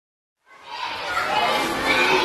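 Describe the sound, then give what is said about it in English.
Small excited boys in uniform flooding through the corridors of a two-storey block at a newly opened primary school in Khartoum, Sudan; dense chatter and shouting fade in after a brief silence and stay loud and continuous. “At a newly opened primary school in Sudan's capital, Khartoum, small excited boys in uniform are flooding through the corridors in a two-story block”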